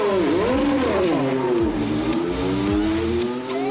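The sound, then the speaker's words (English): An IndyCar race car, the DHL machine, accelerates through the final turns toward the start-finish line. Its high, loud engine whine holds steady with a wavering pitch, and a few lower engine tones swoop down beneath it. “Off the final couple of turns for the final time, it will be career win number 25, and the DHL machine is going to weave its way to the start-finish line to take the twin checkered flag”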